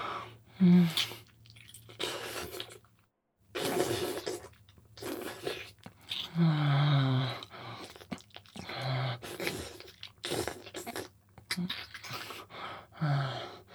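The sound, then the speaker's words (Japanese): Wet tongue licking makes many irregular squishy, smacking bursts of varying loudness, with brief silent gaps between them. “舌動かすとすごい音。ほら。”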